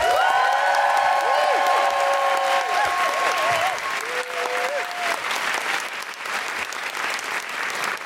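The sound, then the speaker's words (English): Applause and cheering from a stand-up comedy audience in Manchester. Loud, dense clapping runs steadily throughout, with a few high whoops and whistles rising above it. “Then put your hands together and make general woohooing noise for the magnificent Jen Brister.”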